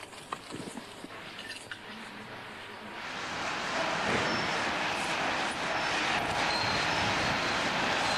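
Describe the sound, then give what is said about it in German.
A van drives into a prison in St. Petersburg, played from a video: a broad rumbling vehicle noise that swells after a few seconds and then holds steady and louder. “So this is our van going into the prison. Hier seht ihr unseren Laster, wie er ins Gefängnis geht.”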